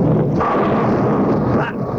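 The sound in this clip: A bowling ball rolls down the lane toward the pins during a game-show contest, a loud, continuous low rumble lasting about two seconds.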